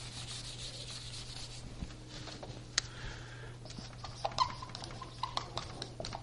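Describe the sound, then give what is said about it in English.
Handwriting strokes scratch faintly and intermittently, with light rubbing scrapes and a few sharper ticks, alone without talk. “Sorry for my ugly writing.”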